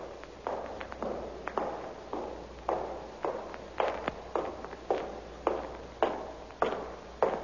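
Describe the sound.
Footsteps hurry across a hall, many evenly spaced hard steps at a brisk, steady pace, each with a short ringing decay.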